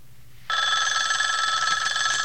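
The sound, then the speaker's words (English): Telephone ringing in the next room of an office, a continuous electronic trilling ring that begins abruptly after half a second of faint low hum and holds steady and loud to the end. “He dials a number, and the phone in the next room starts ringing.”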